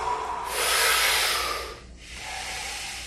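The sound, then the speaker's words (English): Deep breathing during a breathwork exercise, heard as a steady, airy rush of air that swells and then eases. A brief dip follows before a second, softer breath continues. “We're going to have 5 more good breaths.”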